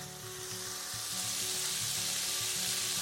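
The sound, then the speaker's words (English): Meat sizzling and frying in a hot pan, a steady, dense crackle with faint popping that holds at an even level throughout, with no voices. “I just take the meat and I just put it into the pan.”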